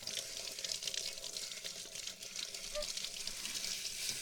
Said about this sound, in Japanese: 最後は全体でちゃんと流して、これで大丈夫ですね。